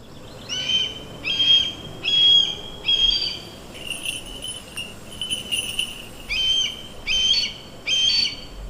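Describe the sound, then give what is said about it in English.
A red-tailed hawk, a raptor used in falconry for small-game hunting in Michigan, gives a regular series of many short, high, whistled calls, each brief and sharp, separated by small pauses. “That is the sound of a red-tailed hawk, one of the species of raptor birds used in falconry, an ancient way of hunting.”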